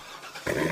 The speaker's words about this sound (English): Do you hear that? That's the sound of America's only sports car. That's right. It's a Corvette.